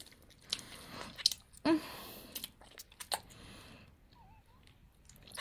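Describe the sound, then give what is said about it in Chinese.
Someone eats a cream-filled ice pop, making quiet biting, crunching and wet chewing sounds in a few uneven bursts, one slightly louder, with soft pauses between them. “这个冰棍真好吃，里面还有奶油。”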